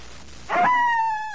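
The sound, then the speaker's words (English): A single wolf howl rises out of a short noisy onset into a sustained, clear tonal note that holds a nearly steady pitch and slowly fades, lasting about a second. “That was a wolf.”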